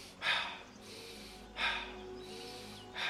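Cyclic breathing demonstrated for a breathing exercise: three sharp, breathy inhalations at a steady rhythm, each followed by a longer, softer, airy exhale that trails until the next breath.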